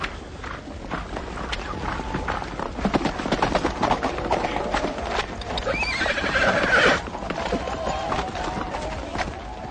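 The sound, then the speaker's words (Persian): A horse neighs in a loud whinny while its hooves clip-clop in a steady run of hoofbeats throughout. “برویم اسب من.”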